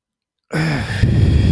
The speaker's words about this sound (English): exhale for four, through the mouth